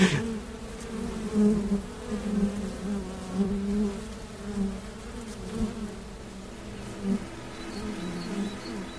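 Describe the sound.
Steady buzzing of bees in a beekeeping setting north of Vienna, a low droning hum that swells and dips in loudness throughout, with no voices.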